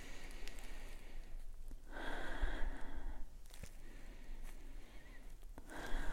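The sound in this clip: A person inhales slowly through the nose, sniffing a tea bag in a kitchen: a soft, airy breath sound that swells for about a second, with fainter breath noises before and after, all quiet and without talk.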